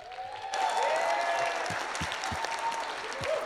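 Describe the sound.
A church audience applauds to welcome speakers. The clapping swells in after a brief quiet start and then stays steady and full to the end.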